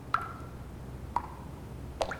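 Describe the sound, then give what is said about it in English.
Water dripping from under a shiny gold metal hood at the end of a bath sunk into a dark marble top: three separate bright plinks about a second apart, quiet against a soft background hiss. “Andrew goes over and stares at water dripping from under a shiny gold metal hood at the end of the bath.”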